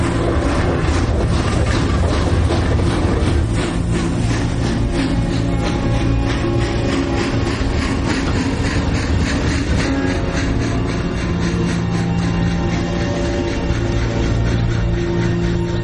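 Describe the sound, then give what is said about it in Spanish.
A WWII-era train bound for Auschwitz rolls along the rails with a loud, unbroken rumble and metallic rattle, with a faint rhythmic clatter of wheels over the track running throughout. “El tren avanza por la vía”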